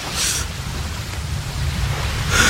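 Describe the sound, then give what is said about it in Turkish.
Rain and thunder in a storm at sea give a steady, dense hiss over a low rumble. Brighter bursts of hissing come at the start and near the end. “Yağmur, fırtına, gök gürültüsü hepsi var. Deniz adeta kudurmuş.”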